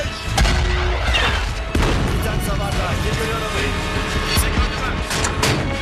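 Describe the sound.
Gunfire over a loud, continuous engine-like rumble, with several sharp, cracking shots spread through a dense, noisy background that stays loud throughout.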